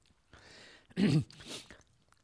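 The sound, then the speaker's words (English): Gulping swallows of a drink taken mid-talk: one loud, low gulp followed by a softer second swallow, with faint rustling before it and quiet afterward. “Let me have a swallow here. Excuse me.”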